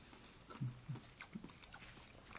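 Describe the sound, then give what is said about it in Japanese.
Quiet chewing of a food simmered in dashi, eaten plain without koji yuzu miso. A few soft, moist bites and mouth sounds come in an irregular rhythm. “まず何もないところで食べてみたいと思います”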